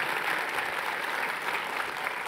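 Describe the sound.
Audience applause follows a talk at a church service. Steady, dense clapping continues alone at moderate volume without pause.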